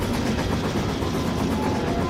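Steady rumble inside a moving passenger train that is full. The dense, even roar holds without distinct events for the whole clip, and no one speaks.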